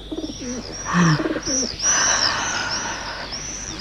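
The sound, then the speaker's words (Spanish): Birds call near the eaves of a house on a warm day, mixing low soft cooing with high, repeated chirps that run steadily on their own. “Compruebo que los pájaros la excitan cuando, como ahora, en sus vuelos ágiles, evitan los aleros o pasan rozando junto a ella”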